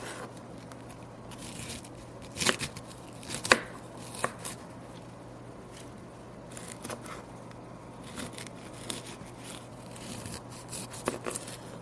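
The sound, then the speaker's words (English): A knife cuts a cauliflower into small pieces after its core is removed. Soft, irregular chopping strokes are broken by several sharper cutting clicks over a low, steady hum, with no talking. “I'm going to cut out and discard the core of the cauliflower and then cut it into small pieces.”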